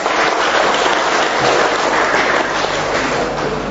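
A church audience applauds with steady, dense clapping that holds at an even level throughout without a break.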